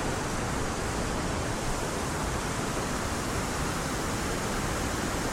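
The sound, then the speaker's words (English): Water falling into a pool among mossy rocks, heard as a steady, unbroken rushing roar that stays at the same loudness throughout. “The ripples from the falling water. Shooting off in every direction.”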